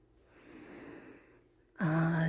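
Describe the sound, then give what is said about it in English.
Heavy breathing close into a microphone, a long, noisy, rasping breath that swells and fades, followed by a short, loud vocal burst. “Dude, you were kind of breathing into my ear just now when you cursed.”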